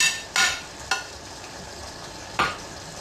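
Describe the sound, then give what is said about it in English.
Tomatoes cooking in a pan on low heat give a faint, steady sizzle, broken by a few short scraping clatters of stirring. “And we have to turn off our tomato low. Otherwise, it's cooked too fast.”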